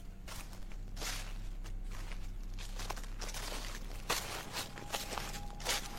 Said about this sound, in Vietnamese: Bất giác ở phía sau vườn cây tùm phát ra âm thanh loạt soạt, tựa hồ như có người đang đi lại dẫm lên lớp lá khô xào xạo, nghe rõ lắm.